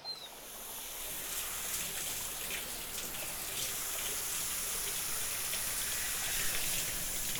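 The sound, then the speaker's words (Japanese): Shower water spraying to rinse hair after a shampoo: a continuous, soft, even hiss of running water with no talking. “最後に全体をシャワーで流しまして”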